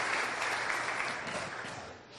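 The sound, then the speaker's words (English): A church audience claps as an offering to the Lord. Steady, fairly soft applause with a dense patter of many hands eases off toward the end. “Let's give the Lord a clap offering.”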